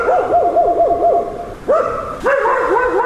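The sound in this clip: Stray dogs on a city street at dusk give a loud run of quick, wavering yelping calls, followed by a few longer, higher cries.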